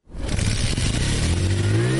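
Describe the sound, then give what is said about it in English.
A motorbike engine starts on a boda boda motorcycle taxi at a stop in Juba, South Sudan. It catches almost at once and runs loud and steady while its pitch rises slowly as it revs. “A cyclist starts his motorbike engine to pick up a passenger who signaled for a ride at a Boda Boda stop.”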